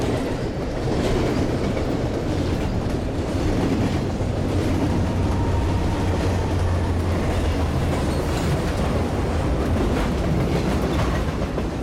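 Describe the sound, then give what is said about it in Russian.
Train on the rails: a loud, continuous rumble with a rhythmic clatter of wheels, holding steady for about twelve seconds. “Видит приближающийся поезд и цепляется за него.”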